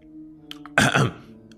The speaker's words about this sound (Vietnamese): Diệp Đông Bình xấu hổ ho khan một tiếng